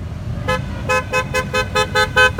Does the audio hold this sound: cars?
yes

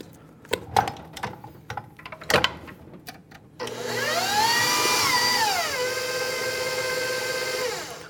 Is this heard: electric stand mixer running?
yes

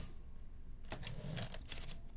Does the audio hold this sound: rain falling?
no

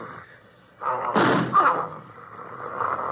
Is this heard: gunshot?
yes

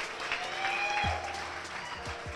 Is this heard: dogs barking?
no

